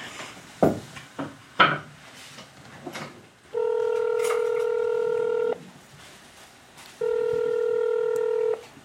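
Telephone keypad tones as a number is dialed for a call to Montréal: a few sharp clicks, then two long, steady touch-tone beeps separated by a short pause.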